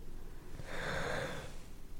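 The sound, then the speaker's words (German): A single slow breath swells softly in the middle and then eases away. It is breathy and gentle, with no talking. “Ein paar Atemzüge noch.”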